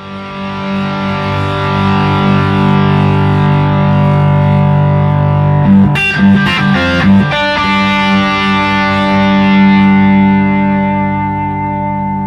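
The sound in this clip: Electric guitar through a compressor, a Sansamp, a BB boost, a Box of Rock and a King of Tone, all engaged at once: a loud, thick, overdriven chord sustains and rings, is re-struck with a few quick strums midway, then rings on.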